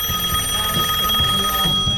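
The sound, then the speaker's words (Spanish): A telephone ringing in a studio during a live radio program, with a steady, high electronic ring that pulses in a repeating pattern. No one talks over it. “Me están llamando, espera. ¿Quién carajo? ¿Está sonando?”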